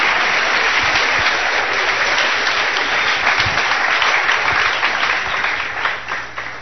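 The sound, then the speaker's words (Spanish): Applause from a church audience during a religious service, loud and sustained clapping that continues steadily for several seconds and eases slightly at the end, with no speech over it. “Démosle un aplauso, hermano, al Señor. ¡Fuerte ese aplauso!”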